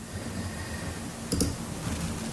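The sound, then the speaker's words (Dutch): A couple of quick computer mouse clicks, faint and close together, over a low steady background hum. “Ik klik het wel gewoon even aan.”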